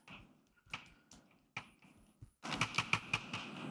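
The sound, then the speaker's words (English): Writing on a board during a mathematics lecture comes through as faint, sharp taps and scratches: a few sparse strokes at first, then a quicker, denser run of clicking marks. “So let me write it.”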